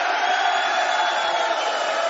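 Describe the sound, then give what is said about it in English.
A huge drunken crowd roars at Camacho's restaurant in City of Industry on Cinco de Mayo, with cheering and whooping voices blending into a loud, continuous wash of noise. “We are at Camacho's in the city of industry, boys. Right along the 60 freeway, Crossroads Parkway exit. A huge drunken crowd.”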